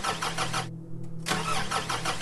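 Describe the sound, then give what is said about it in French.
A car engine struggles as it breaks down on the road at night, grinding in rapid rhythmic pulses over a low hum, cutting out briefly midway, then churning again. “Alors qu'il fait déjà nuit, sa voiture tombe en panne au milieu de la route.”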